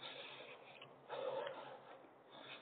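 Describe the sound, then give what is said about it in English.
One deep breath, a faint, breathy rush of air that swells briefly in the middle and then eases off, with no talking. “I'll take a deep breath.”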